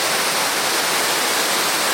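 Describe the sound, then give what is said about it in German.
A young mountain river rushes and foams right beside a steep, slippery path, producing a steady, dense roar of water that stays loud and unbroken throughout. “Die junge Simme brodelt und schaumt direkt neben einem.”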